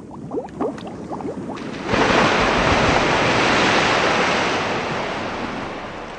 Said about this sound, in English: The sea and the seagulls, the only sound